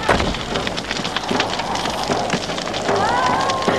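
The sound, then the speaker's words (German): A house fire burns as a radio-drama sound effect: a dense, continuous crackling and rushing roar with sharp pops scattered through it, and a voice briefly audible near the end. “Das Haus brennt.”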